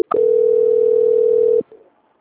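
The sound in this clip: Telephone tone during a call transfer: one steady, loud, mid-pitched tone holds unbroken for about a second and a half, then cuts off, leaving a brief faint trailing blip and quiet.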